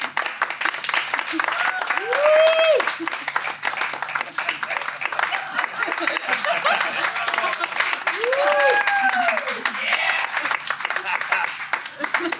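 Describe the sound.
Audience applause welcoming a speaker on stage, with steady clapping throughout and voices briefly heard over it.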